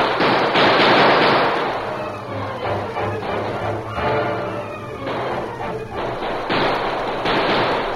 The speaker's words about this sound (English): With incredible speed, they reloaded and fired again. For 5 minutes, they kept up their barrage.